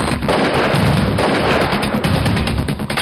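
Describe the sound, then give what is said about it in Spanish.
Gunfire inside a Hilux pickup truck as a gang member shoots at the four occupants: many rapid, sharp bangs over a dense, harsh roar of noise that stays loud throughout. “Uno de los miembros de la banda ingresa a la camioneta de la víctima y procede a disparar contra los cuatro ocupantes.”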